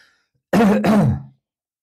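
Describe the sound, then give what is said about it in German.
A person's rough, throaty cough, a short burst in two closely joined parts with a voiced, gravelly edge, heard alone with no talk around it. “da musste ich nochmal unterbrechen, weil ich husten musste”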